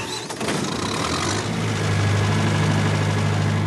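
Electrical generator running while Afghan soldiers and civilians learn to repair it: a loud, continuous engine drone with a strong low hum that thickens and steadies after the first second or so.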